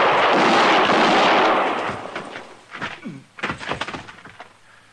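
A Western gunfight between a marshal and an outlaw erupts with a heavy, roaring gunshot that rings out for a moment. A quick series of sharper cracks and thuds follows.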